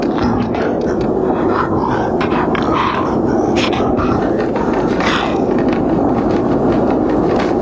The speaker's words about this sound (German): Dann öffnete sich das Tor und die Bahn zuckelte in die Dunkelheit.